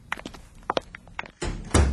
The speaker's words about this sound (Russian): Она хлопнула кухонной дверью